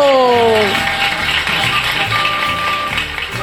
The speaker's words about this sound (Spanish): Recibamos con un fuerte aplauso a Cupido.